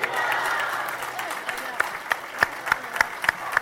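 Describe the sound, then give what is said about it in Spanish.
Crowd cheers and applause at the San Antonio festival launch in Plaza de la Constitución, Laredo: a broad crowd roar first, then a few seconds of sharp, regularly spaced claps standing out above the crowd. “los vivas del público que acompañaba en la Plaza de la Constitución ayer a última hora, este acto de puesta de largo, de lanzamiento de la fiesta de San Antonio en nuestra localidad”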